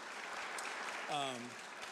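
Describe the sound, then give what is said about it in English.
An audience at a community gathering claps in thanks to the people who opened the space, a steady patter of many hands with a brief voice rising over it partway through. “Can we just give them a round of applause and thank them for opening the space to us?”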